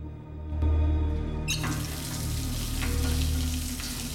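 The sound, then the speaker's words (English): Water runs from a tap into a basin as a pathologist in scrubs washes his hands. After a soft knock, a steady, full hiss of water starts and continues to the end. “He goes over to a basin and washes his hands.”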